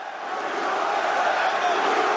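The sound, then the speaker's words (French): Crowd noise from a boxing match at Madison Square Garden, where fans chant USA as a dense, steady wall of voices that gradually rises in loudness and holds. “On entend les USA, USA, et voilà qui réveille le public du Garden”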